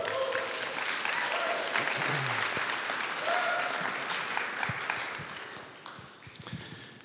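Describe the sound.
An audience applauds to welcome a guest speaker to the stage at a morning church service. The clapping is dense and steady, then tapers off toward the end.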